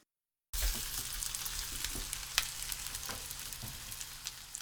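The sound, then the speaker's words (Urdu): Sardines fry skin-side up in a generous amount of oil in a hot frying pan. After a moment of silence, a continuous bright sizzle sets in, steady and loud, peppered with sharp little crackles and pops. “ایک frying pan کو گرم کیجیے اور اس میں روزمرہ سے ذرا ہٹ کر کچھ زیادہ تیل ڈالیے. اب اس میں سارڈین مچھلیوں کو اس طرح رکھیں کہ کھال والی سمت اوپر کی جانب ہو.”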